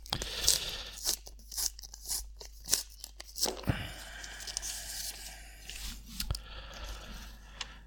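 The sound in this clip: A paper envelope is torn open at a sports club's annual awards presentation, giving many irregular crinkly tearing and crackling bursts of varying loudness, sharp at first and then a softer, more continuous rustle.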